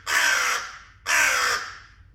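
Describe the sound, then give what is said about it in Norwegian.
A crow caws very loudly at 4 a.m.: two long, harsh, raspy caws separated by a short pause, each fading away after its start. “Ja, og jeg tror kanskje det der den mest høylytte kråka jeg noen gang har hørt I hele mitt liv.”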